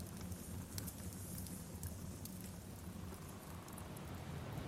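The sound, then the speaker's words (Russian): Rain falling as a steady, faint hiss with scattered light drop ticks throughout, even in level and unbroken from start to end. “Шел дождь.”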